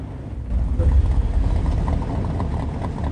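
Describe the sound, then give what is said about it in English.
Cars idling side by side at a junction near docks, making a loud, low, steady engine rumble throughout. “They drive past some docks and pull up next to each other at a junction.”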